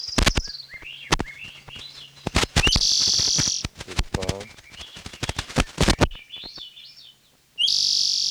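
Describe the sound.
Wild Swainson's thrushes singing: repeated fluting phrases of quick upward-spiralling whistled notes, broken by brief pauses and sharp, loud clicks.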